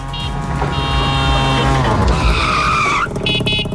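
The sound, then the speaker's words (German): A tuk-tuk engine revs loudly and steadily as a jingle-style sound effect, with a high tyre squeal that bends in pitch partway through before the engine noise carries on. “So klingt das Tuk-Tuk und das ist dann für euch das Startsignal, hier durchzuklingeln.”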